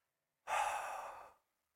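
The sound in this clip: A long breathy exhale from participants at a youth worship session, hands over their heads. One soft, airy rush of breath lasts about a second, then fades away.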